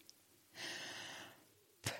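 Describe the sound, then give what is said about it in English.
A single soft, steady blow of breath into a colour-change breathalyzer tube, lasting about a second at low volume, with a brief sharp noise near the end. “So I will do the breathing.”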